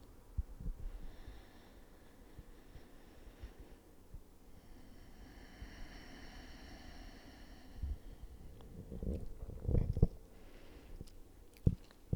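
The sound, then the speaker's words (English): A deep breath, very faint and alone: a long airy intake of air followed by a few short, snorting puffs near the end. “I'm taking a choice to take a deep breath.”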